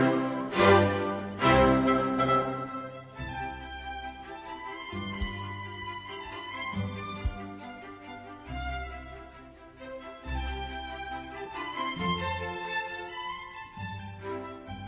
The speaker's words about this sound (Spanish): Una introducción en la que la orquesta suena así de rotunda.